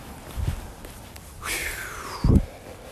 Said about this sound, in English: I'm out for a walk and didn't feel like recording in the basement today.